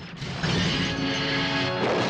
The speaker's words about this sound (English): A dart hits the controls, which explode in a shower of sparks.